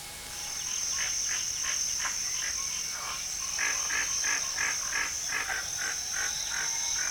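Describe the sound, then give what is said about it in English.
Jungle ambience: a continuous high cricket trill runs throughout while frogs croak in quick rhythmic bursts that come and go. No voices are heard. “it's the sound of the jungle”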